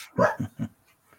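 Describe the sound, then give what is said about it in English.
A dog barking three times in quick succession, a louder first bark followed by two slightly softer, lower ones, then quiet. “Apologize for the dog barking”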